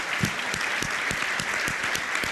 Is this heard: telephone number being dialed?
no